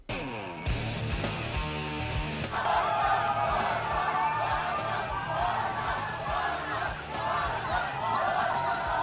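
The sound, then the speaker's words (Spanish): Crowd of fans greeting FC Barcelona's arrival in Las Vegas: a loud, sustained din of cheering, shouting and whoops that runs steadily through the whole stretch. “Este es el sonido de la llegada del Barcelona a Las Vegas, porque allí está el equipo azulgrana que juega esta próxima madrugada frente al Milan.”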